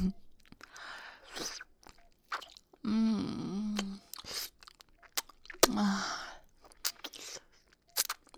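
Crunchy chewing and biting into something, with irregular crisp crunches and wet mastication noises, broken by two drawn-out low moaning vocal sounds.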